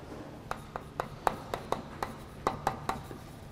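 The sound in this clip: Writing on a board during a lecture: a quick, uneven run of sharp taps and short scratches, about a dozen strokes, fairly faint and without talk.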